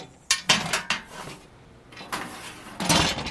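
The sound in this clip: Metal lid being removed from a 55-gallon drum in a cavernous lab space: a quick run of loud clanks and clinks, a quieter scraping stretch, then another loud metallic clatter near the end.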